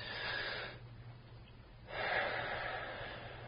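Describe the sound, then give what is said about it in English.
Deep breathing during a hypnosis session: one long, airy breath, a short quiet pause, then a second, longer breath, soft and unhurried. “Breathe deeply, Dermot. And again.”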